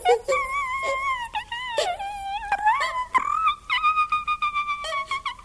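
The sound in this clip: Crying and wailing, a voice letting out long high-pitched moaning cries that waver and bend in pitch, breaking into shorter choppy sobs toward the end.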